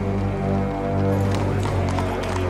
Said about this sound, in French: Une calèche tirée par 2 chevaux traverse une placette pavée.